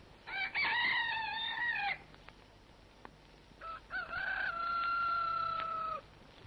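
Two long rooster crows, loud and clear with a short pause between them and faint clicks in the gap; no one speaks.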